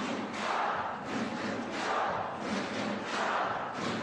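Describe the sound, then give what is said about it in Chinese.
Home team football fans roar and chant in a stadium, a dense, continuous crowd din that swells and ebbs in several broad waves. “现场我们真的是感受到球迷啊已经在给我们的队员们加油了， 是山呼海啸般的呐喊声啊！相信各位通过现场的这个收声话筒也能听到啊，咱们主队球迷的呐喊声。”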